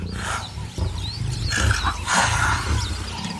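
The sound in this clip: Lions roaring around a leopard that they have chased up a tree. Loud, continuous, rumbling roars and growls overlap throughout, with no speech.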